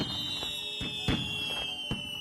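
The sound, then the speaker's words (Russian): Fireworks explode in a few sharp, booming bursts, one louder crack near the middle, while a steady high whistling tone runs underneath throughout; no voices. “Голос Валерия потонул в шуме фейерверков.”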